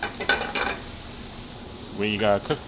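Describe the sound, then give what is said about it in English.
Diced, blanched and drained potatoes sizzle as they brown in a pan, a soft steady crackle broken by a couple of brief voiced sounds. “in another pan, we are going to brown the potatoes that are cut into a small dice, and they're first blanched and drained, and they'll caramelize, brown up more”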